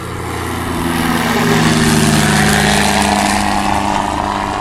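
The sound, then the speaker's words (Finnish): Small propeller airplane taking off and flying from a small airfield, a loud, steady droning engine with buzzing propeller tone that swells slightly in the middle and holds evenly throughout. “ja nyt ollaan ilmassa. Ja tästä sitten lentää.”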